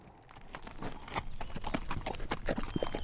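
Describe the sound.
Hooves of several horses clip-clop as riders ride over, a steady, fairly quiet stream of many overlapping hoofbeats that grows slightly louder as it goes on.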